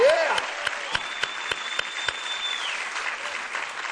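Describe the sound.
Applause from a church audience during a service, welcoming the Lake Hills Church downtown campus: dense, steady clapping that slowly thins toward the end, with a voice heard over it.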